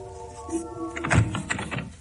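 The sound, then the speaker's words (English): A bedroom door opening softly: a thin, drawn-out creaking tone followed by a soft, muffled thunk, with no voices. “But then, the bedroom door opens softly.”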